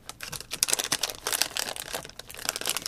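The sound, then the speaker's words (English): A foil wrapper crinkles and tears as someone struggles to open it by hand, a dense, continuous stream of crisp, irregular crackles and rustles with no voices. “I think we'll spend the rest of the episode with crinkling in the background of me trying to open this.”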